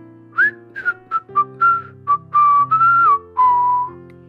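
A person whistles a cheerful tune while leaving a room: a quick run of many clear, bright notes in short, lilting phrases, alone with no talk.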